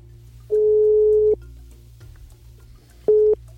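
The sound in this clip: A telephone ringing tone while a call is placed: a steady, mid-pitched electronic tone sounding in one long burst, then a short second burst after a pause.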